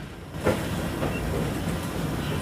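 A train runs along the line near Hampton Lode, giving a continuous low rumble of wheels and carriages with a brief louder knock early on. The rolling noise stays steady throughout.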